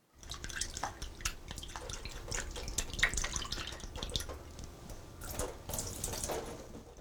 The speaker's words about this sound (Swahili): Baada ya hatua hiyo, sasa osha zabibu kavu na uzikaushe kwa kutumia chujio.